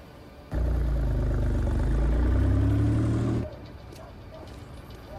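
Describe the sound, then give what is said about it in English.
Engine of a black car driving slowly along a dimly lit street: a low, steady rumble swells up abruptly, holds for about three seconds, then drops away to a quiet background hum. “A black car drives along slowly behind him in the distance.”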